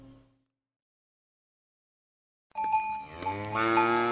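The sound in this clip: A cow lowing while giving plenty of milk: after silence, one loud, drawn-out moo with a full, harmonic tone that wavers in pitch and holds to the end.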